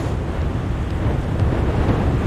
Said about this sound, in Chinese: 这是德雷科风暴，它正横扫休斯顿。